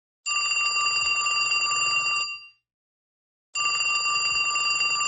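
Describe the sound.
Telephone bell ringing in two long, steady bursts separated by a silent pause, a bright, high, sustained ring with no voices.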